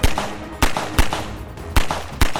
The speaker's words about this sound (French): Enveloppés par un nuage de poussière, ils se mettent à tirer sur les trois fugitifs.